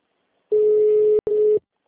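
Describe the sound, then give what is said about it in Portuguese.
An automated phone menu tone: a steady, mid-low pitched hum, cut by one very brief gap, then resuming for a shorter second stretch before stopping. “Atendimento digital. Após o sinal, digite o ramal desejado ou aguarde.”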